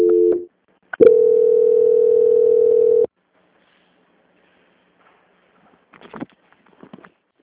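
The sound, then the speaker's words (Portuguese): A telephone transfer tone for a call being passed to a bank's quality-control line: a short blip, then one steady, loud, even tone lasting about two seconds, followed by near silence with faint scattered noises at the end. “pois vou transferir a ligação para o controle de qualidade que dará continuidade à sua contratação. Só um momento, por favor. Transferência.”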